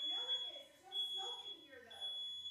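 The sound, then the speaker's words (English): A fire alarm goes off in a house, a high steady electronic tone sounding in several long pulses beneath people talking. “Did they catch something on fire? That's a fire alarm.”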